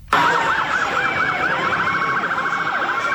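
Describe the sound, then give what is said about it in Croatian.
Police sirens wail on New York's blocked streets during the annual UN meeting week in September, loud and continuous, with warbling, sweeping tones that overlap throughout and no voices. “Policijske sirene, blokirane ulice. Tako New York već tradicionalno zvuči i izgleda svakog rujna.”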